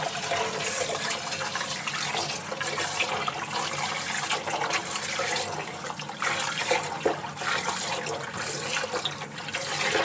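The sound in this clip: Running tap water pours steadily over raw chicken hearts as they are rinsed during cleaning, about a kilogram in all, making a continuous, even splashing hiss with no clear pauses.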